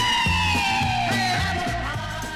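A song's B-side plays, with a long, wavering sung note sliding slowly downward over a repeating low bass pattern. The sound stays steady and full throughout.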